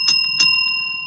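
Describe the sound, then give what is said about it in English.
A physical bell is rung twice in quick succession. Its bright, clear ringing tones linger and slowly fade, with no talk. “and then I'm going to ring a physical bell, which sounds like this,”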